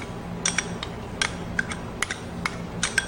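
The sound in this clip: Light clinks and scrapes of a utensil against a bowl as tahini is scraped and mixed, a run of many brief, sharp ticks at an uneven pace, fairly faint and without talk.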